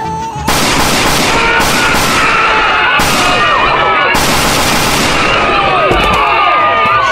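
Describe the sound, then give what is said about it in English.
Gunfire in a police shooting scene, loud and dense, with many sharp shots crowding together in rapid bursts across the whole clip after a brief quieter start. “Officer under fire!”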